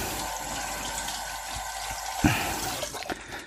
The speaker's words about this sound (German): Immer Hände waschen, gründlich nach dem Hantieren mit Hähnchen.